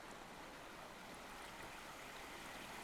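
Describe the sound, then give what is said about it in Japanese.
Steady bubbling and rushing of water in an indoor gym jacuzzi pool, a faint, even wash of churning foam with no voices. “あ、誰もいないこの時間のジャグジーに入るのが僕の毎週の楽しみだ。”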